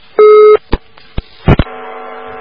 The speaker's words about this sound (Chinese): 这个真是电话断掉